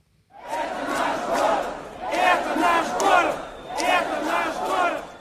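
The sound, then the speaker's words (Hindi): Protesters chant slogans in unison outside Moscow city hall, a large crowd shouting loud, rhythmic phrases that rise and fall in repeated waves with short gaps between them. “ये आवाज है रूस की राजधानी Moscow के city hall के बाहर जुटे प्रदर्शनकारियों की, जो नारे लगा रहे हैं, ये हमारा देश है और शर्म करो।”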